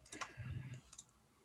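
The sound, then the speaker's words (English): A computer mouse clicks faintly while a target is selected on screen. Two short, crisp clicks come about three-quarters of a second apart against a quiet background. “Do you see when I'm clicking on the guy?”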